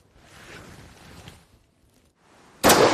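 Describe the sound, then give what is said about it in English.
A Lee Enfield .303 rifle fires one loud, sharp shot right at the end, after a few seconds of soft, low background noise. “This is what the soldiers at Mournhill would have been given to fight with, the famous Lee Enfield 303. It's a weapon with a legendary reputation, and I'm about to find out why.”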